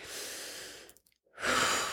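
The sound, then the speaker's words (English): Slow, deep breathing during a self-soothing butterfly-hug exercise: two long, breathy breaths, the first fading into a short silence before the second swells up loudly. No talk. “And in this position, you're going to breathe. So you'll take a few breaths”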